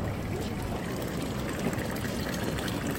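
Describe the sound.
Water runs steadily from a decorative street fountain in Bern, a continuous even splashing and trickling rush with no speech over it.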